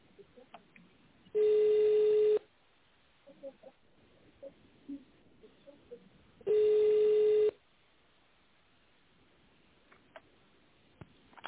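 A telephone ringback tone plays while a caller waits for a secretary to answer: two long, steady, mid-pitched beeps separated by a long pause, with faint low background noise in between.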